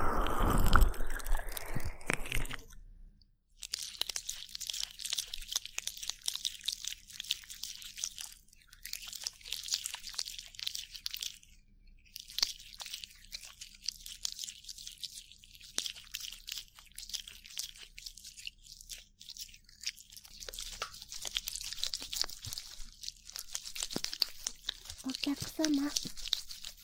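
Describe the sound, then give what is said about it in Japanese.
Soft rubbing, crinkling and scratching from an ASMR ear massage performed directly on a microphone, a faint continuous friction texture broken by a few brief pauses. “音でリラックスしながら、マッサージで耳の感度を上げていきましょう。”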